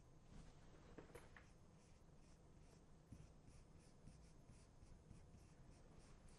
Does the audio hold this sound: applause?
no